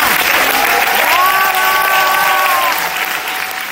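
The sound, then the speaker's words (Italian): Loud, dense applause of a standing ovation from a packed audience of artists and journalists in the Sala delle Colonne, a continuous roar of clapping that stays strong before easing slightly at the end. “questa era la standing ovation che la Sala delle Colonne, affollata insomma di artisti e giornalisti, ha tributato a Ursina Lardi.”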